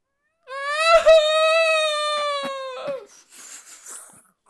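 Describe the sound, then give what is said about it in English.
An eerie wail from the trees, voiced by a person imitating it: one long, steady moaning tone held for over two seconds that ends in a short breathy tail. “You hear another wail from the trees.”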